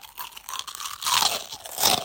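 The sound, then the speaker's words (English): Crunching on crispy churros: many loud, brittle chewing crunches in irregular bursts, with the densest, loudest crunching in the second half, and no talk. “Yes, crispy and delicious. Why, of all snacks in the universe, did you bring churros? They'll get grease everywhere. You're getting crumbs on my narration chair.”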